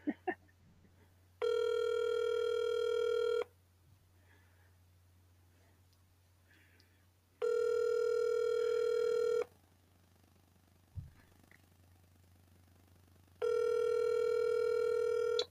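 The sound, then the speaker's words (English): Ringback tone of an outgoing telephone call: three long, steady, buzzing ring tones of about two seconds each, separated by quiet pauses of several seconds with faint clicks. “He's going to be like, why the fuck is Getty's calling me?”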